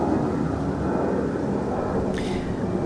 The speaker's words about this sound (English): I gotta wait. Enjoy the wind and the plane and the sound. Because this is so loud in my headphones.